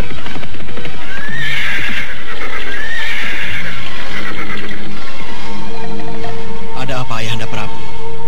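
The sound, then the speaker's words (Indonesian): A horse neighs as its rider halts it while a riding party sets off; a few high, wavering whinnies ring out over a steady, busy background. “Belum beberapa jauh rombongan itu berderap meninggalkan Paku Jajar, Prabu Sana menghentikan kudanya.”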